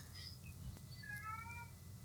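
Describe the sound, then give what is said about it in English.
A domestic cat gives one brief, faint meow over a quiet, low background hum. “What was that? Was that a cat? That literally sounded like a cat. Oh, I'm sorry. That's my cat.”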